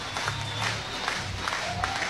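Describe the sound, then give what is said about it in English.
A lively college sports crowd cheering at a women's game: a steady, busy roar of many voices with scattered clapping, holding at a moderate level throughout. “Crowd is alive. Quick trip to the circle from associate head coach Laura Heberling, who's in her third season. But it did not do anything to slow down this crowd.”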